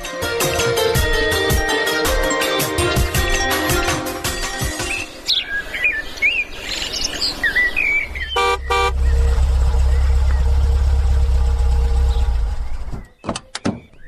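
A car engine idles with a low, steady rumble for about four seconds near the end, after a stretch of busy bird chirping; the rumble then cuts off abruptly.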